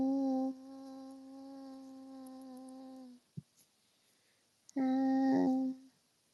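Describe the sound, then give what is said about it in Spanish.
A fly buzzes in a long, steady drone of about three seconds. A faint click follows, then a second, shorter burst of buzzing. “Oh, oh, una mosca.”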